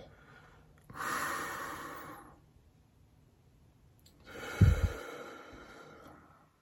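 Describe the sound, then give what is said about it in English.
A big, deep cleansing breath is taken during a guided relaxation exercise: one long, airy inhale, a pause, then a longer, fuller exhale with a brief nasal snort at its start. “So let's just take a big, deep, cleansing breath.”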